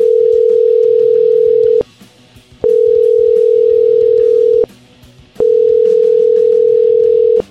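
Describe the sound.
Telephone dial tone heard while placing a call: a steady, loud mid-pitched tone in three long stretches, each broken by a short gap of near silence, with no voices.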